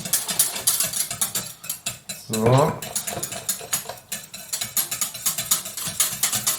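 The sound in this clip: Stirring pudding powder into milk in a small pot, with a rapid run of clinking and scraping from the utensil against the pot that continues steadily throughout.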